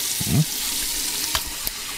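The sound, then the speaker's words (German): Hands washed with soap under running water at a sink: a steady, even hiss of flowing water with a few soft splashing and rubbing bumps, no voices. “Ja, Seife. Und jetzt den Daumen da bitte. Und seit Corona wissen wir auch noch, wie lange wir die Hände waschen müssen.”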